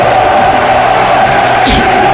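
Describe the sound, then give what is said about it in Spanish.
Crowd noise from a football stadium, fans celebrating during a match against Cacereño: a loud, steady roar of many voices holding throughout, with a brief sharper burst of cheering near the end. “Bueno, el público que lo celebra, porque es para celebrar, porque hacía muchísimo tiempo que no veíamos un partido tan completo del Deca.”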